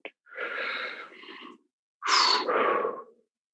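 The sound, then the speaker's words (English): A deep breath during an emotional question session: two long, airy breath sounds separated by a short silence, the second somewhat louder. “All right. So one more deep breath.”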